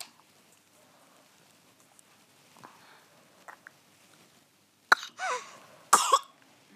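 A person suspected of having bronchiolitis gives two harsh coughing bursts near the end, each trailing into a rougher follow-on, after a long stretch of near silence with only faint ticks.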